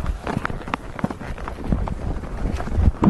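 Horse hooves beating at a trot while a rider sets off, a steady series of soft, rhythmic thuds partly masked by rushing wind noise.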